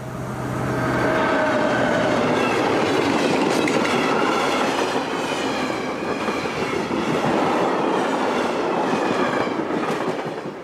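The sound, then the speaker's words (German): Long, heavy freight train rolling past, building within a second into a loud, continuous rumble and rattle of wagons, with the rhythmic clatter of wheels over rail joints throughout and no voices. “Lärm und Vibrationen, das ist es in erster Linie, was die tonnenschweren und meist sehr langen Güterzüge verursachen.”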